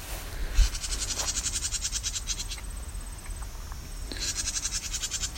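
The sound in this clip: A wren gives its scolding call near its nest: rapid, harsh, rattling chatter in two bursts separated by a pause, over a low steady rumble.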